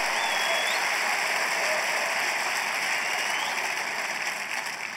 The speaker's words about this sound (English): So make some noise for that, because that's the realest thing probably going on in hip hop and the world.